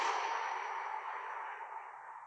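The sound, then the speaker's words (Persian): A slow exhaling breath during a guided breathing exercise: a steady, airy hiss that lasts about two seconds and fades gently toward the end, with no talking. “دوباره نفس بکشید، مکس کنید 4 ثانیه، حالا 4 ثانیه بدیدش بیرون،”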